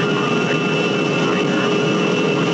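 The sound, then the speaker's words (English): Steady, loud roar of an aircraft engine as a plane comes in to land, with a few faint whining tones layered through the unbroken rumble. It holds constant for the whole stretch, with no voices. “Attention, please. We will soon be landing at Westworld, the ultimate resort.”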